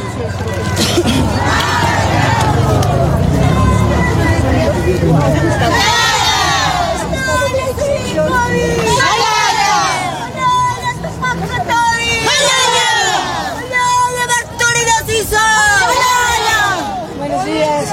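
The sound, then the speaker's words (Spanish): Loud, continuous crowd noise from the Bartolina Sisa protest march passing along Mariscal Santa Cruz avenue, with many voices shouting and chanting over steady street noise throughout. “Estamos viendo cómo está haciendo su paso por la avenida Mariscal Santa Cruz, la marcha convocada por las Bartolina Sisa, quienes están exigiendo la renuncia del presidente Rodrigo Paz.”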